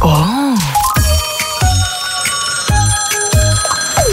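A telephone rings with bright, sustained tonal chimes over a repeating pattern of short, punchy low bursts, loud and continuous with no talk.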